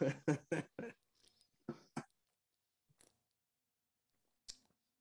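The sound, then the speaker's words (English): A can of zero-sugar Diet Baja Blast soda being cracked open: a few sharp metallic clicks and short crackling bursts separated by near silence. “I'm gonna crack open the Baja Blast one real quick so we can get a live review.”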